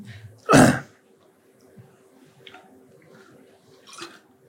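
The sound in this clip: A single throat clear for a tickle in the throat, one short loud rasping burst near the start, followed by near silence with a few faint, soft noises.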